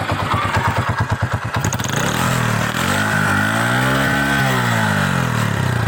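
A milk seller's motorcycle engine putters with a low, pulsing idle rhythm, then revs up so its whine climbs in pitch and falls back again, loud and continuous without talk.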